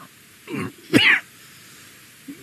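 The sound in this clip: Someone clears their throat to dislodge coffee grounds stuck in it: two short, rough bursts, the second louder and harsher, then a faint small catch of breath.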